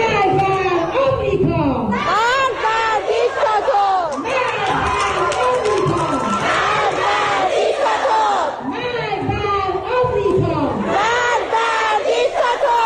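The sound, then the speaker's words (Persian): Schoolgirls chant protest slogans together, many young voices shouting in loud, rhythmic unison, with repeated phrases rising over a busy, continuous crowd din. “بله، این صدای دهه 80 های ماست که بلدن شعارهای خودشونو بدن.”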